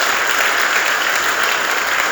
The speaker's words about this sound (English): Let's give him another round of applause.